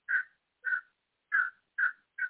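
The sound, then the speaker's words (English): Birds call outdoors with five crow-like caws, each short, harsh and mid-pitched. Silent gaps of uneven length separate the calls, and no other sound is heard. “I'm going to pause that because the birds are competing here.”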